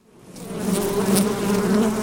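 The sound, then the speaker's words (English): Angry bees swarm as a beekeeper lifts a hive cover on a hillside in Serbia, a dense, loud, continuous buzzing that swells in at the start and then holds steady. “Vlada Njakovljevic's bees are angry. As he lifts a hive cover, they swarm, one of them stinging him in the cheek.”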